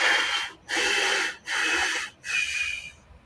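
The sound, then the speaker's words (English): Deep breathing during a triangle-breathing calming exercise: four loud, airy, hissing breaths in close succession, separated by short pauses. “So triangle breathing, count in on four and breathe in.”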